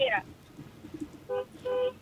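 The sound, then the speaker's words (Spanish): Two short car horn honks, each a steady, flat blast, come after a brief vocal sound at the start. “dame un ejemplo, toca el pito de cómo tú le llamas la atención”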